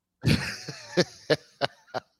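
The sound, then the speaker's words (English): A woman coughing: a longer first cough followed by a string of short, sharp coughs at a fairly even pace, each separated by brief silence. “Oh, there's an ad already. The ad is always first. Oh, wait, there's... A woman with large breasts coughing.”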